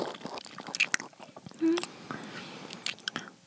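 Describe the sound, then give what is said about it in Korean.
Close-up biting and chewing of a strawberry with cream, soft wet mouth sounds with whispering voices around them. “오, 맛있겠다. 음, 크림 향이 나는 것 같아. 여기 딸기도 있어. 입으로 넣어줄게.”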